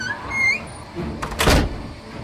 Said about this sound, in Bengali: দড়াম করে হঠাৎ থানার বাইরের দরজাটা আপনা আপনি বন্ধ হয়ে গেল